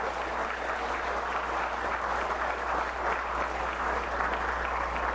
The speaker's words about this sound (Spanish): Un aplauso para los maestros.